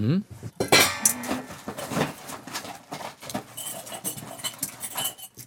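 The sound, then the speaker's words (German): Knife and dish clinks as a hard-boiled egg is cut in half, a sharp clatter near the start followed by many lighter taps, scrapes and small knocks, fairly faint overall. “Vielleicht schneiden wir das Ei einmal auf, dann sehen wir auch, ob da was passiert.”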